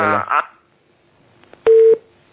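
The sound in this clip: A single steady telephone tone after a dropped call sounds as one loud, short, even beep. It follows brief talk and a quiet gap.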